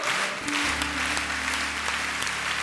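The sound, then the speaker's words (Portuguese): Congregation applauding the word of God at a church service: continuous, even clapping with sustained low tones running beneath it. “E aplauda mesmo a palavra de Deus.”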